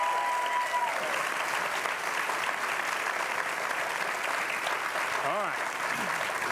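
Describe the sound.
Studio audience applause welcoming two guests onto a television talk show set: a dense, steady wash of clapping that holds at an even, fairly loud level from start to finish.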